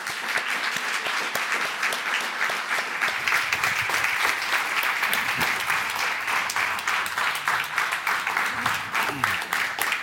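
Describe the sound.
An audience at a literary event applauds to welcome two authors on stage, a dense, even wash of clapping that holds strong for the whole ten seconds.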